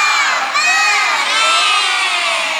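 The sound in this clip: Children in a classroom shout and cheer together in a loud, bright burst of many young voices, rising and falling over a couple of seconds as they do a group clapping cheer for classmates.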